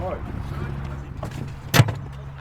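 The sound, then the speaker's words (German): A golf cart is boarded and set off from the clubhouse: a steady low motor hum runs throughout, broken near the end by one short, loud thud. “endlich darf ich mal Golfkart fahren und ich steig mal hier drüben mit ein, okay?”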